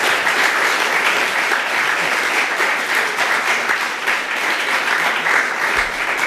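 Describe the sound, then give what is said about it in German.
Audience applause at a conference after a talk: steady, dense clapping that stays loud and even throughout, with no pause. “Alles klar, vielen Dank. Dann noch einmal Applaus.”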